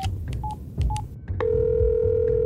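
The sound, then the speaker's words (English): A phone number is dialed on a touch-tone keypad: a few short electronic beeps, then a steady continuous line tone that holds to the end, with no voices. “I dialed the number for him.”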